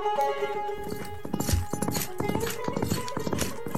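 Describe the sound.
Horses riding out, their hooves clip-clopping in many steady, fairly even beats that continue throughout at a moderate level.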